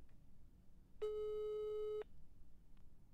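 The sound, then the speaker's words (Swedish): A single steady telephone tone sounds while a call is being placed: an even, electronic buzz-tone lasting about one second, then cutting off, with no voices. “Jag provar ringa henne.”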